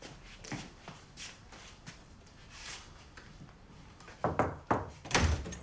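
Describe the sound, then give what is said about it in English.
A door is shut by a man coming back into his room from a corridor, giving a few dull thuds near the end after quieter shuffling movement. “shuts his door and comes back inside”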